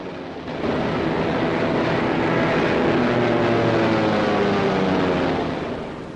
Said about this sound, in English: All around the airfield, people look up, awaiting the return of the planes. They fly back in pairs.